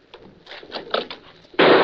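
A gunshot fired inside an office rings out as one sudden, loud, sharp blast near the end, after a stretch of faint, muffled knocks and shuffling.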